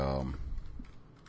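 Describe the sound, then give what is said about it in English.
Typing on a computer keyboard to enter a message in a chat: a voice briefly at the start, then a quick run of light, rapid key clicks that fade toward the end. “Lee White, we're going to type it right here”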